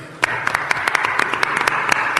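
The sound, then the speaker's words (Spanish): Audience applause at a Málaga fair event, with many sharp hand claps rising abruptly and then running on as a dense, lively, moderately loud patter of overlapping claps. “Un aplauso para Borja, claro.”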